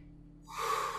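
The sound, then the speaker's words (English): One sharp, deep, audible inhale rises suddenly out of near silence and holds as a loud, airy rush to the end. “Deep breath.”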